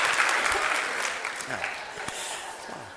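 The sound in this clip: An audience applauds to welcome a man back after his heart surgery. The clapping is dense and steady and tapers slightly toward the end, with a faint voice underneath.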